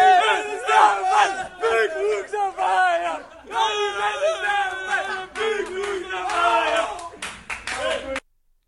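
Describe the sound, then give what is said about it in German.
Exuberant cheering fills the SV Werder Bremen dressing room, with many voices yelling and whooping in loud bursts, mixed with clapping. It stops abruptly at the end. “Ja, ausgelassene Freude hören wir da in der Kabine des SV Werder Bremen.”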